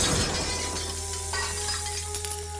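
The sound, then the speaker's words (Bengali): Glass of a hurricane lantern shattering, with a sharp, bright burst at the start that settles into a faint, lingering rattle and thin ringing tones as it fades. “পর মুহূর্তেই জীবটা মাটির ওপরে আছাড় খেয়ে পড়ল, আর তার ল্যাজের ঘা লেগে হ্যারিকেনের লণ্ঠনটা ভেঙে একেবারে নিভে গেল।”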